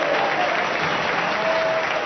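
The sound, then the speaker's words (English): Cheers and applause at the Colombia–FARC ceasefire signing in Cuba: dense, steady clapping from many hands, loud and even throughout the brief moment. “Today, the two groups met in Cuba to sign a historic ceasefire amid cheers and applause.”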